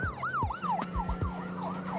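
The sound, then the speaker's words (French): An ambulance siren rushing a child to a hospital, a wailing tone sweeping up and down in quick repeated cycles, steady and fairly faint, with a low engine hum beneath and no talk. “Une ambulance le conduit de toute urgence à l'hôpital pour enfants.”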